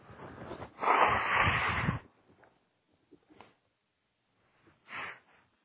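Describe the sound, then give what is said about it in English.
A person blowing their nose: one long, loud, rasping blast, then faint sniffs and a shorter second blow near the end. “Sorry, I have to blow my nose.”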